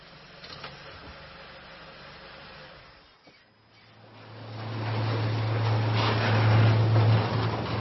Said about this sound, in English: The police vans drive into the underground parking.